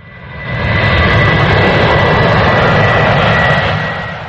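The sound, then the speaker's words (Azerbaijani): Airplane engine roar from a plane flown by a pilot in Afghanistan: a loud, steady jet roar swells up in the first half second, holds at full strength, then eases slightly toward the end. “Häzir hem Mejit pilot öz uçuşyny dowam etdirýär.”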